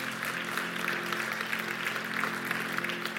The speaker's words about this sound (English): Yes, it is something to clap for